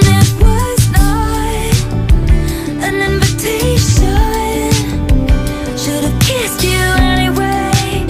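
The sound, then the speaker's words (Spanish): A pop song plays, with a sung lead vocal over a steady beat, bass and layered instruments. The music stays loud and continuous throughout. “y la canción suena así.”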